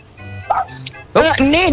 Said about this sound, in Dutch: Is dat een blaffende hond, Brigitta, op de achtergrond? Ja, mijn hondjes zijn erbij, ja.